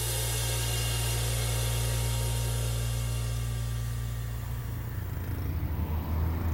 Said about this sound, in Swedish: I den heta sommarkvällen rullar en armada av fordon över motorvägsbron som sträcker sig från Key Biscayne till fastlandet.